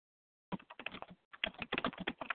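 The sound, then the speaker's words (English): Typing on a computer keyboard: rapid, irregular keystrokes clatter steadily for about two seconds, with a brief pause midway, and no voices. “So I'm going to type this up right now and type this question up right”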